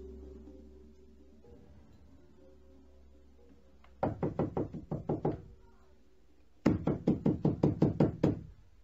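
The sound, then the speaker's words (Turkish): Knocking on a house door in a horror drama comes in two rapid bursts of many hard, evenly spaced knocks, the second burst longer and louder, after a stretch of low hum. “aç şu kapıyı! Kim çalıyorsa kıracak ayol, aç!”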